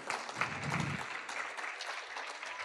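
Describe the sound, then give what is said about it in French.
A church audience applauds and acclaims the Lord during a sermon on overcoming temptation, with steady, fairly quiet clapping that carries on evenly throughout, a brief low voice surfacing early on. “Est-ce qu'on peut juste acclamer le Seigneur pour cette vérité,”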